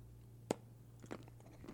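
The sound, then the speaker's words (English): Someone chews dark chocolate with crunchy freeze-dried raspberry pieces: one sharp crunch stands out early, followed by a few softer, faint chewing and squishing sounds with no talking. “That raspberry. That is dark chocolate, though. But that raspberry is really good in there. Yeah, the freeze-dried raspberry is kind of crunchy a little bit.”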